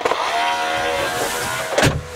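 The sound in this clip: A robot vacuum cleaner, just switched on, drives over the floor with a steady whirring motor hum, and a brief louder swish surges near the end.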